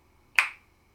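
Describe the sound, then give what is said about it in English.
A single sharp finger snap, made with the left arm held out to the side, rings out alone against near silence and decays quickly. “Do the same with your left arm and snap your finger.”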